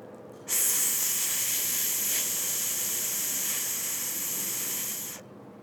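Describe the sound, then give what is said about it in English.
A voice holds an unvoiced TH consonant as a steady, breathy hiss lasting about five seconds, starting and stopping abruptly with no voicing. “I'm going to say and hold each sound. Join me if you can. Unvoiced TH.”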